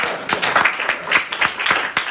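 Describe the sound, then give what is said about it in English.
A short round of applause from a small group, with brisk, uneven claps that rise and fall at a moderate level. “I'm going to get a round of applause to that.”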